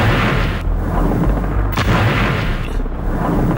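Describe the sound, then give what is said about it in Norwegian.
Explosions from the Israeli bombing of Beirut in 1982: a loud, dense, continuous rumble of blasts with a few sharper booms standing out. “Dette lyden av Israel som bomber Beirut I 1982.”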